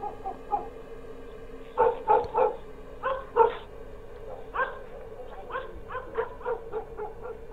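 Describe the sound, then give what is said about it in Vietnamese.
Dogs barking in the distance at night at the edge of a village: many gruff barks in irregular bursts, some doubled, rising and falling in loudness with brief pauses between. “Đâu đó ở bên đầu làng xa xa, tiếng chó cắn ma cứ ông ổng, nghe đến não hết cả lòng.”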